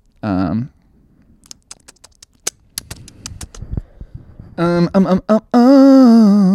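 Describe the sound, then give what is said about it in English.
Typing on a computer keyboard produces a run of sharp, irregular key clicks, with short stretches of a person talking just before and after. “Let's see here. I typed something.”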